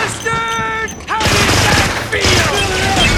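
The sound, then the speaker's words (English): Rapid machine gun fire punches holes in the roof of a small spacecraft. A brief tonal sound comes first, then two long, dense bursts of loud, crackling gunfire. “It's on the roof and O'Brien gets out a machine gun and just shoots zillions of holes in the roof of the runabout.”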